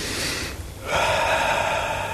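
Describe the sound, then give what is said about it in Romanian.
A deep breath drawn in on command, a loud, airy rush of breath that dips briefly, then swells and holds steadily to the end. “Ia, respira adânc. Încă o dată.”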